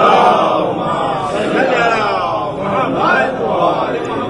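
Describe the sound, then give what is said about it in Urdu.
A crowd chants loudly in unison in answer to the Nara-e-Haidari slogan, a dense mass of voices that swells and eases over several seconds without pause. “نعرہ حیدری، صلوات پڑھنے آپ حضرات.”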